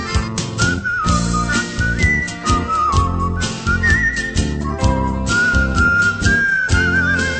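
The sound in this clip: Whistled melody from a singing taxi driver, bright sustained tones sliding between notes over loud, steady instrumental accompaniment with a driving rhythm throughout.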